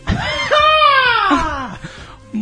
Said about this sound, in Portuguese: Para que ele faça o gritinho de hoje.